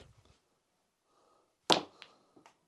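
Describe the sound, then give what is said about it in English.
Sharp crack of a cue ball striking on a long range snooker shot that pots a red into the top pocket, one loud click followed by a few fainter knocks, with no talk. “Beautiful long range shot into the top pocket. The red's gone down.”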